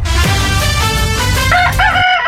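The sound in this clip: A rooster crows once, a loud, harsh, drawn-out call that holds for about two seconds before cutting off abruptly.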